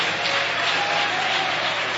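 A church audience claps to welcome a pastor, with continuous, even applause that runs unbroken from start to finish.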